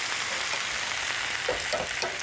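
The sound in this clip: Food begins sizzling in a pan after salt is added, a continuous dense hiss of frying that holds at an even, fairly loud level throughout.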